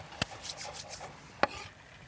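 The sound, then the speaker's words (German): A knife dices a tomato into small cubes, with two sharp, distinct chopping knocks about a second apart and soft scraping between them, no voices. “Auch nochmal Würfelchen von der Tomate.”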